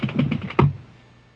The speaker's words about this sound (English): one of them bounced off of my dice catcher onto the floor